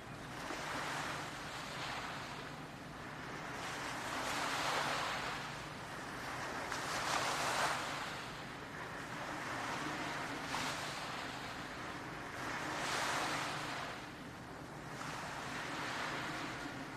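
Ocean waves wash onto a beach, soft and faint, with slow surges swelling and fading every few seconds over a constant airy hiss of wind.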